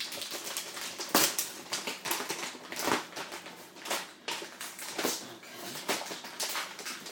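Packaging torn open by hand, a fairly quiet run of crinkly rips and crackling rustles that come in many uneven bursts.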